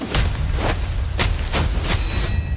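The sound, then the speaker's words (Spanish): Gunshots fired at a man ring out in an irregular volley, several sharp, cracking bursts spaced unevenly over a low rumbling background, with no voices. “¿Por qué le disparan a usted?”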